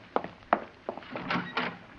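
A few soft knocks at a door, evenly spaced and fairly faint, followed by quieter scraping and shuffling sounds.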